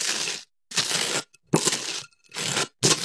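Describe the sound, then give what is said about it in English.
Butter is spread on toast in five rough, crunchy scraping strokes, each about half a second long, separated by brief silences. “Spreading something on toast. Yeah, it's spreading butter on toast.”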